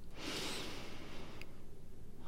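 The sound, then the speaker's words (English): A single slow, deep breath, faint and airy, heard as a soft hiss of air. “Today, take a deep breath.”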